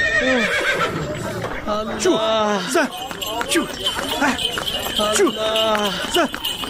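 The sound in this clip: A horse pulling a buggy whinnies several times, its sharp neighs cutting over clopping hooves, while people talk urgently throughout.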